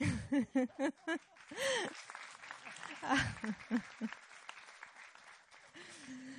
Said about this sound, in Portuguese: Portanto, vamos dar uma salva de palmas à mãe.